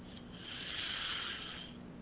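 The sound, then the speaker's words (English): One slow, deep breath, a soft airy hiss that swells and then fades, quiet and alone. “I just want us to sit back and relax and to take a deep breath in and out and just sort of release all the tensions and the worries”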